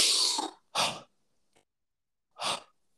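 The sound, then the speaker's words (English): Quick mouth breathing in a rapid two-part in-and-out pattern: a few sharp, breathy rushes of air, the first long and the next shorter, then a pause before another. Heard alone, without talk. “that's a two-part breath where he breathes in through the mouth and out through the mouth. Sort of sounds like this.”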